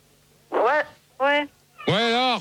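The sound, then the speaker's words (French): A female cat meowing on a radio call-in: three drawn-out tonal wails, each bending up and then down. The last is the longest and loudest, and a steady low hum runs underneath. “C'est une chatte, Gégé. T'entends comme elle miaule, ça doit être une chatte.”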